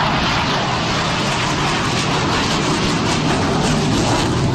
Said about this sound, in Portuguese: Esse é o som de um dos caças nesse evento aéreo em São Paulo, na zona norte, ali na Praça Campo de Bagatelle.